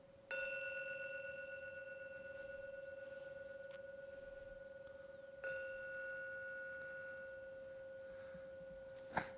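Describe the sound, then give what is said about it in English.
A gong rung three times to close a meditation: each quiet strike rings out as a clear, sustained tone with bright overtones that lingers for seconds. The strikes are spaced several seconds apart, and the last comes at the very end. “We are going to ring the gong 3 times to end the meditation.”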